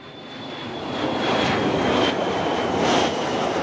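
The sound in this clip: Airplane flying overhead: a broad, rushing engine roar that swells in loudness and holds strong, with a faint steady whine riding above it.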